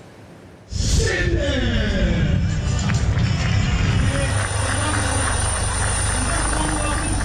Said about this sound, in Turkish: Uçaklar ve helikopterler gösteri uçuşları gerçekleştirdi.